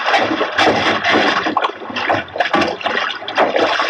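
A man pushed overboard into the sea, with loud, churning splashes and sloshing water that surge and ebb in several heavy waves with no pause.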